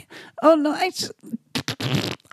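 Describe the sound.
A voice imitates a fart with the mouth, a few loud, abrupt, buzzy sputtering bursts mixed with voiced sounds and brief pauses.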